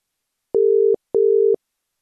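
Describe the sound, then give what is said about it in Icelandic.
Telephone ringback tone of an outgoing call to the islands: two steady, mid-pitched electronic beeps of equal length, separated by a short gap, clear and alone with silence around them. “En við ætlum að hringja til Eyja.”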